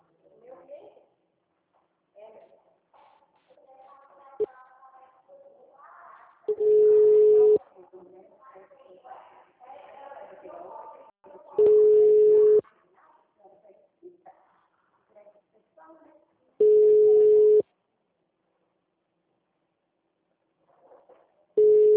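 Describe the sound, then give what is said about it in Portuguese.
A telephone busy signal on a Brazilian line: long, steady, mid-pitched tone bursts repeat about every five seconds, with a recorded voice message speaking in the gaps between them. “O número chamado está ocupado. Tente novamente mais tarde.”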